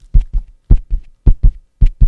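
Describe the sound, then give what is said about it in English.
Fetal heartbeat at four weeks, a steady loud doubled thump repeating about every half second, each beat a low whooshing pulse pair with no talk over it. “Sounds just like the heartbeat, doesn't it?”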